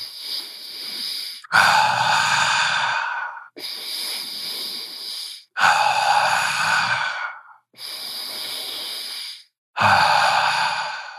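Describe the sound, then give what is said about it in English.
Slow, deliberate breathing in three full cycles. Each cycle pairs a softer, airy inhale through the nose with a fuller, louder exhale through the mouth, and short silent pauses separate the breaths. “Inhale through your nose, exhale through your mouth like a circle.”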